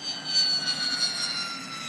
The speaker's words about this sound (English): But to see just how quirky this plane is, watch it land.